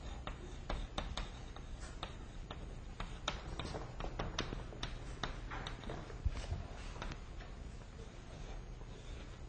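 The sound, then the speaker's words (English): Chalk writing on a board during a lecture: many faint, sharp taps and short scratches in an irregular rhythm, with no talking over them. “I'll write it down, method of lines.”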